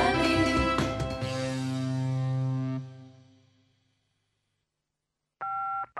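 Telephone dialing tones: a sustained ringing chord fades away into silence, then short, steady two-tone keypad beeps sound near the end.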